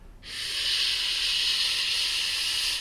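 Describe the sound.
A voice imitates the 'sch' sound used as the liver sound, starting abruptly and holding a smooth, bright hiss at an even loudness for about two and a half seconds before cutting off.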